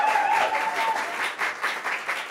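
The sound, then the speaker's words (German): A stand-up comedy audience claps in a dense, steady patter of many hands that holds at a moderate level throughout. “Haben wir davon noch mehr im Publikum? Einmal klatschen.”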